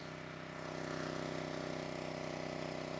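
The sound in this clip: A generator runs at an amateur radio field day site, giving off a steady, even engine drone with a low rhythmic hum. It stays fairly faint and constant, with no voices over it.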